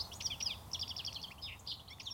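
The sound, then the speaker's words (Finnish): A goldfinch gives its jingling call: many rapid, high, tinkling twitters in quick, bunched runs, fairly faint over a soft, steady background hiss. “Tämä helisevä ääni kuuluu Tiklille.”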